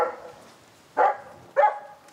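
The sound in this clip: A dog barks twice in quick succession, short sharp barks about half a second apart, after a fainter opening yelp, with no talk over them.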